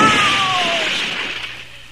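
A bomb sound effect in a comedy sketch: a descending whistle slides down in pitch over a loud, broad rush of noise that gradually fades away.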